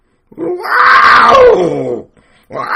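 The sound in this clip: A voice imitates a wild forest cat yowling in the March mating season: one long, loud, drawn-out wail whose pitch sinks toward its end, followed by the start of another vocal sound.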